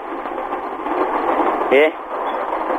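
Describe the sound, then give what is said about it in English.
A train passing on the track beside a house, heard as a steady, loud rumbling roar that fills the whole clip with little change. “So waiting for that train to pass. That was a train. I live by the train track.”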